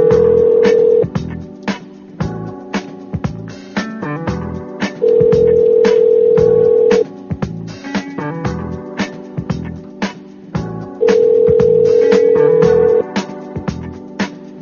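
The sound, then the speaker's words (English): A telephone ringback tone sounds on a call that goes unanswered. The steady, mid-pitched tone comes three times in two-second bursts with long gaps between them, over a busy, clattering percussive backdrop. “I don't want to keep doing this with it just ringing and you not picking up”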